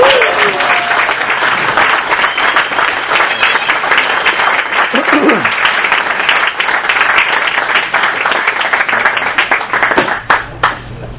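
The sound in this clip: Applause welcoming a speaker to the front at a recovery group meeting: dense, sustained clapping from many hands that holds steady, then thins to a few last scattered claps at the end.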